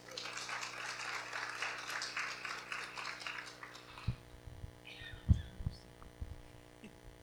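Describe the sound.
Applause welcoming a speaker to the stage at a church: dense, steady clapping for about four seconds that gives way to a few low thumps.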